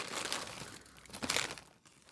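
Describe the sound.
Crinkling and tearing of a small paper prize bag opened from a Cracker Jack box, faint and papery, swelling in a couple of rustling bursts with no talk.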